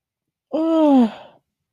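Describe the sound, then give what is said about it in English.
A single drawn-out human yawn, voiced and breathy, sliding slightly downward in pitch as it fades, heard alone. “yawn. I'm gonna cut that yawn out anyways.”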